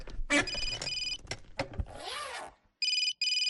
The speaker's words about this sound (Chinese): 我接个电话。